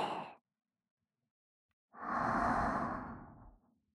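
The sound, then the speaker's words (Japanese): Deep breathing in and out. The tail of one breath fades quickly, then after a silent pause a single long, airy breath swells and slowly dies away. “いっぱい深呼吸するっすよ。せーの、吸って、吐いて、”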